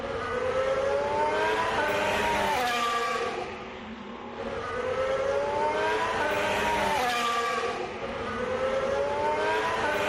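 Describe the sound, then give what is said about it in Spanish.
New Williams Formula 1 car engine running, a loud, high-pitched whine with repeated rising sweeps as it revs, holding steady apart from a brief dip in level midway. “lo que sí que es cierto es que he podido grabarle y así suena el nuevo Williams de Carlos Sainz.”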